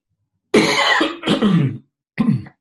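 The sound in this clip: Three harsh coughs from a person, loud and abrupt, the first longest, with short silent gaps between them and no talk around them.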